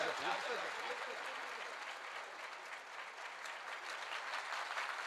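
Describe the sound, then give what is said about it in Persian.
Audience clapping at a gathering: dense, steady applause that holds at an even level for about five seconds without pause. “بزن کف بزن.”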